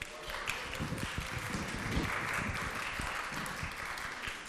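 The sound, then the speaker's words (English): Audience applause at a church holiday concert, Central United Methodist Church's Sounds of the Season: thick, continuous clapping from many hands at a steady level for several seconds. “You've all been practicing. Give yourselves a hand.”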